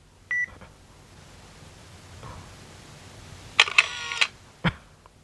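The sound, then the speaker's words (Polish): A camera takes a photo: a short electronic beep, then after a quiet pause a brief burst of rattling shutter clicks lasting under a second, followed by one more sharp click, all fairly soft with no talk. “I spróbujemy cyknąć jej zdjęcie. Okej. Okay. Robię zdjęcie.”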